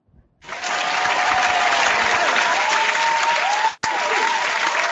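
A live studio audience applauds loudly and steadily for a show taping. The clapping breaks off sharply for a moment near the end, then resumes at full strength.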